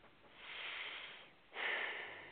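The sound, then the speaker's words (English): A deep breath is drawn before speaking, two long, soft, airy rushes of breath, the second starting more sharply and sounding stronger, both faint with no talk. “I love the way you take that deep breath, too, before you... that means you really, really care, and you think it out well.”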